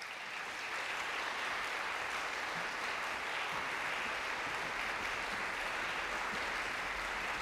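Audience applause welcoming a recorder, flute and piano trio to the stage, a thick, uniform roar of clapping that holds steady and full for several seconds.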